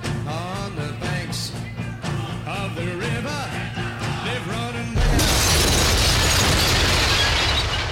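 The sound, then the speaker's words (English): A record player explodes: music with singing is cut off by a sudden loud crash, which becomes a dense, sustained noisy roar until the end. “Our record player has mysteriously exploded.”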